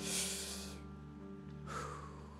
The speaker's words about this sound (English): would you just take a deep breath with me?